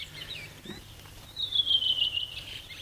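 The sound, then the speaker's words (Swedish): Fieldfare song: a thin, high, squeaky phrase that falls slightly in pitch and lasts under a second, fairly faint over a soft hissing background. “Och sen kommer det ett litet björktrast. Krax efteråt.”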